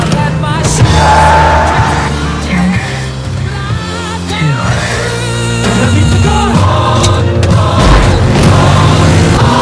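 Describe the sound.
A car accelerates and weaves down a road, with engine roar and tire squeal in a dense, loud, layered mix that keeps going the whole time.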